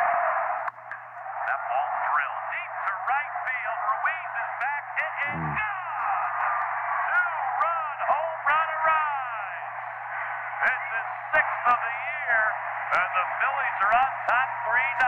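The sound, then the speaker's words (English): A Phillies baseball game on the radio, thin band-limited announcer speech running continuously through a bed of static hiss with scattered crackles and clicks, the voice too muffled to make out. “I would be listening to like a Phillies game over all this static and whatnot. And it would sound something like this.”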